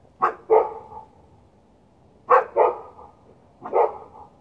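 City dogs barking at unfamiliar noises: sharp barks come in three separate bursts, two quick paired barks followed by a single bark, with quiet gaps between them and no voices.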